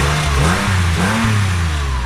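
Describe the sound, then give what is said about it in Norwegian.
Engine of a dark blue Porsche revving as the car rolls past, a loud, low, continuous growl whose pitch climbs and dips through a couple of throttle blips. “Nå kommer det en Porsche rullende her. Den er ganske fin. Mørke, mørke blå, ser som en mørk nattehimmel.”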